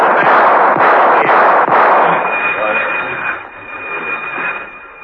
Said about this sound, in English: whipped up a few warning shots and raced for the next cottage.